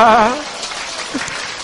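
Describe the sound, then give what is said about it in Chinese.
Audience applause at a church gathering: a voice begins, then steady clapping noise continues at a moderate level to the end. “我哋热烈掌声完我哋今日双奖好嘛。”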